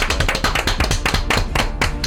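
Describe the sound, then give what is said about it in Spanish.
Applause for a guest, a crowd of hands clapping in a dense, irregular stream of sharp claps that stays at a steady, fairly loud level throughout. “Pues venga, vamos a darle esta ovación cerradísima.”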